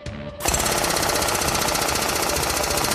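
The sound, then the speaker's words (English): Loud pneumatic hammering from a tool using a rod to drive a pin out through a vehicle's track. A brief quieter start gives way to a dense, continuous rapid rattle that holds steady to the end. “so it'll align on the pin here, keeps it centered as it drives through there. And that way, you know, it stays centered, it doesn't go off track when it's driving through the pin.”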